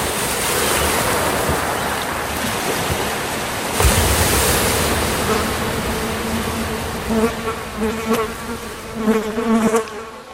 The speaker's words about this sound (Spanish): L'eau clapote.